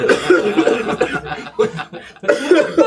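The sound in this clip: Coughing and choking after inhaling root beer: harsh, sputtering coughs come in a few rough bursts that break off and start again over nearly three seconds.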